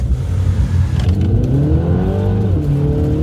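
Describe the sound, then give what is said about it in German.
An Audi Q4 e-tron electric car driving off, a loud continuous whirring drive whose tones climb in pitch as it pulls away, with no voices. “Jetzt einsteigen und losfahren”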